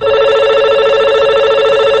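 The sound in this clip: A telephone rings for an incoming call: an unbroken, warbling electronic trill, loud and steady for about two seconds, then cut off abruptly.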